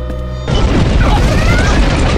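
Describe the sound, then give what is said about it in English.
A subspace shockwave hits a starship: a steady tonal hum is cut off by a sudden heavy boom, which swells into a loud, dense, rumbling roar that holds to the end. “Bridge! What was that? Are we under attack? I'm going up there. We don't know, Doctor. We'll keep you informed. Bridge out. Neva, same question as the doc. That was a subspace shockwave,”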